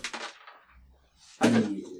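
A homemade slingshot shot striking a beer can: a sharp, noisy burst at the start, then after a short lull a second, louder burst with a brief ringing tone that quickly fades.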